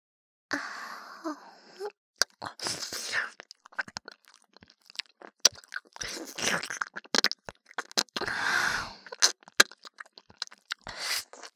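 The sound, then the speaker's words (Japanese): ASMR ear-licking mouth sounds: wet smacks, clicks and slurping licks come in many irregular short bursts, with soft crunchy textures between them and brief quiet gaps. “さあ、もっとなめなめして差し上げますよ。”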